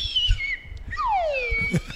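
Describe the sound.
Slide whistle: a high wavering tone dips and levels off, then a long, smooth downward swoop, over a low, noisy background.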